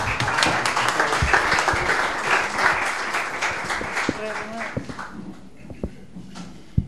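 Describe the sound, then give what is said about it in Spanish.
Audience applause at a public talk on journalism, dense and continuous clapping for about five seconds that then thins into a few scattered claps. “un aplauso para el compañero”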